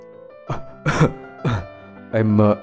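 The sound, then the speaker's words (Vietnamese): A voice performs the coughing of a sick man lying in a hospital bed: four short, throaty, voiced bursts with uneven gaps, the last one longer. No other sounds are heard. “ho lên khụ khụ”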